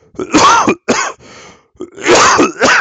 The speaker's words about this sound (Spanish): Aunque sea, no me duele el pecho cuando toso ahora. Perdón.